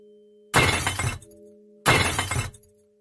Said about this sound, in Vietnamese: Tiếng đổ vỡ làm cắt ngang đi dòng suy nghĩ của Nam.